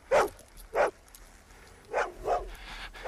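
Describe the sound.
A dog barks four times, fairly faint, in two separated pairs of short, sharp barks with quiet gaps between them and no voices.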